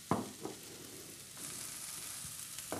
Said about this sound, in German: Dann rühren wir die Geschichte mal um, dass sich das mal gut verteilt und anfreunden kann